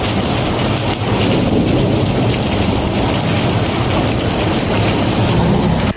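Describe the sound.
A thunderstorm in the Murcia region: heavy, steady rain pours without pause, loud and dense, with low thunder rumbling beneath the downpour.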